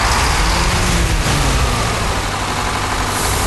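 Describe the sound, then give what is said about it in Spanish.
Powerful eighteen-wheeler truck engine roaring in a loud, steady, low rumble that holds evenly throughout, with no voices. “se destapa con el sonido del potente motor de un 18 ruedas que suena tal que así”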